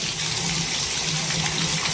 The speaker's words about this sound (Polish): Odkręcamy kran i leci.